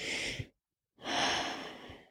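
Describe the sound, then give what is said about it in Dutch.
A deep breath: two long, breathy rushes of air separated by a short silence, with no talking. “Even een diepe ademhaling.”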